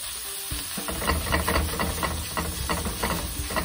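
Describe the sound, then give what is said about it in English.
A burger patty sizzles flat in bacon grease after being smashed down, giving a loud, steady frying hiss laced with rapid crackles and pops that carries on throughout without any talk. “So you want to smash that thing down real good and flatten it out. See it in the bacon grease right there.”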